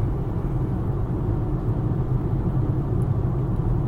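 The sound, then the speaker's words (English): A car is driven home on a road at night, a constant low rumble of engine and road noise that stays even and unbroken, with no voices. “I'm driving home from Eugene, Oregon.”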